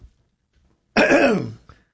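One loud, harsh cough with a rasping quality close to throat clearing, lasting about half a second and heard on its own without talk.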